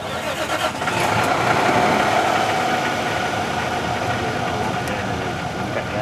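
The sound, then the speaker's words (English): A bus engine idles before a ride with a tour group, giving a steady mid-pitched rumble that holds an even loudness throughout. “I'm kind of looking forward to this ride because I've heard about it for years. It got the name Banh Mi Bus”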